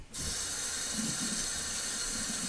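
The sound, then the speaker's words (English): Running tap water pours steadily while lettuce is washed under it, a continuous even rushing hiss that starts abruptly and holds at a constant level, with no talking. “it keeps you entertained while I'm washing lettuce”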